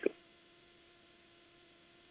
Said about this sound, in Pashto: اوهو تلیفون ګوره چې قطع شو